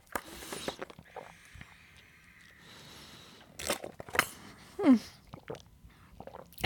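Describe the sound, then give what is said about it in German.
Someone gulps down the last of a 0.5 litre drink, a series of irregular swallows, slurps and small clicks, mostly faint, with a couple of louder gulps toward the end. “Ich trinke das noch aus. Das geht gar nicht. Warte.”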